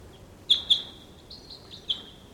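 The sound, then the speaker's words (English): Decoy birds and wild birds call: two sharp, high-pitched chirps in quick succession are followed by softer, thinner calls and another clear chirp, all faint over a quiet background. “There's some other wild birds around. Decoys calling.”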